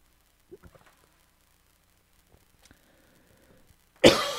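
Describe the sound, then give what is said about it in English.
A single loud, harsh cough from someone with a catch in the throat bursts out near the end, after a stretch of only faint, scattered small sounds. “Excuse me. Had a catch in my throat.”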